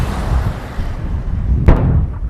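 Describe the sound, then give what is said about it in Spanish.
A single sharp boom of large-caliber artillery fire by US forces near Makhmur, set over a constant low, rumbling noise bed. “De las cercanías de la base de Makmur, las fuerzas de Estados Unidos utilizan artillería de gran calibre sobre las posiciones del Estado Islámico en Gayara.”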